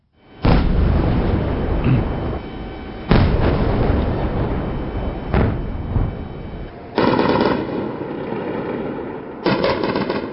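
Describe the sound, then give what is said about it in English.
Explosions and anti-aircraft fire over Kyiv in the early morning during a drone and missile attack: five loud, heavy bursts, the last two rapid stuttering volleys, each trailing into a long rumbling decay. “This was the sound of the attacks and anti-aircraft over Kyiv in the early hours of the morning.”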